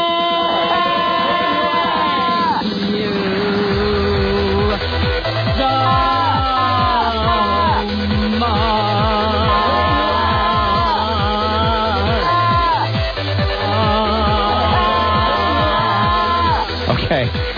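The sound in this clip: A newly produced music bed for going into breaks or bringing guests on plays throughout, with a steady rhythmic pulse under repeating melodic phrases, loud and continuous.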